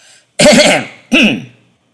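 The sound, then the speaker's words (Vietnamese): A dry throat-clearing cough, two harsh rasping bursts in quick succession, the first longer and the second shorter, loud and alone with no talk. “Phong Trần Tứ Khách cố tạo ra vẻ trịnh trọng, chậm rãi ho khan lên một tiếng rồi mới cất lời”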